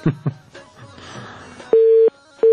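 A telephone busy tone follows a cut-off phone-in call: two loud, steady, mid-pitched beeps separated by a short gap, after a few soft clicks and low noise.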